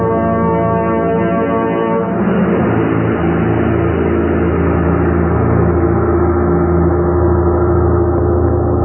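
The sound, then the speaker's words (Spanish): A fast car speeds through a police cordon with a loud, continuous engine roar. A steady, droning horn-like tone opens the sound and then gives way to a broad, rushing noise that holds until the end. “El veloz auto cruzó el cerco policiaco y segundos después...”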